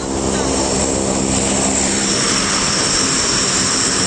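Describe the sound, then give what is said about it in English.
Engine roar from two C-130H military transport aircraft spooling up on a hot airport flight line in North Carolina: a loud, dense, unbroken roar with droning propeller tones that fills the whole clip. “It's jungle hot out on the flight line at Charlotte Douglas International Airport in North Carolina as two C-130H models spool up, getting ready to head west.”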